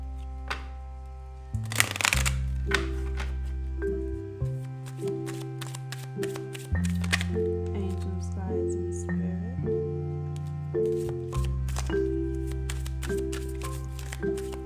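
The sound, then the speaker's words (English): Tarot and goddess oracle cards being shuffled, with soft riffling and tapping bursts over steady background music carrying sustained low notes and a bass line. “Okay, so I'm just gonna pull some healing cards for the collective and some goddess oracle cards.”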